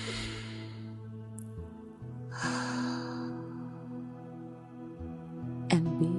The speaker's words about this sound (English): Taking a deep breath right now.